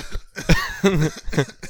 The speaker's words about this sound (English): If you're the enemy, your vision, I think, goes a little bit blurry and you start coughing.